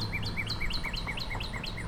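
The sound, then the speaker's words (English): Birds chirp in a yard, with many short, high, bright calls repeating in a quick, even rhythm over a faint low background hum. “Lots of tweety birds.”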